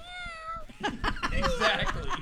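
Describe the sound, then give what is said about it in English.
A cat meows once with a clear, drawn-out cry that falls slightly in pitch. People then talk and laugh over it. “That's right, and you meow too. You agree, see? A cat will always agree.”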